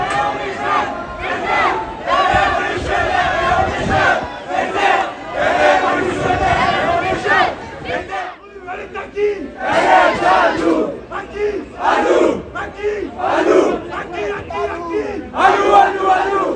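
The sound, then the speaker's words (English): Students marching in a Paris street protest cheer in loud, repeated surges of shouting and yelling, many overlapping voices rising and falling, with a brief lull midway before the roar resumes. “As the morning went on, more students from all over Paris marched and met at the high school. Every time more students came down the street, they all cheered.”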